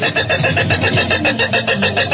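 A car engine that got rained on cranks and sputters as it struggles to start, a steady run of rhythmic loud pulses that never catch.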